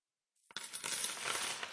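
Coins drop and jingle in a continuous metallic shower of many light clinks and rattles that start abruptly and keep going to the end, fairly faint overall.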